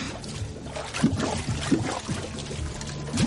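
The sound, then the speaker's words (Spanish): Water splashes and pours as a person falls into a flooded underground tunnel, a continuous sloshing wash broken by a few soft splashy thuds. “Cae en una galería inundada.”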